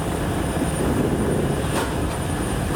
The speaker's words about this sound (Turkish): Yardımları taşıyan iki askeri kargo uçağı Simon Bolivar Havalimanı'na indi.